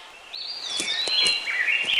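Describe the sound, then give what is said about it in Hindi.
Birds chirping in a forest, with thin high whistles that glide and overlap continuously for about two seconds, fairly soft over a quiet hiss. “अरे देखो देखो, कितने अच्छे पक्षी हैं यहाँ पर। अरे वो देखो चिड़िया।”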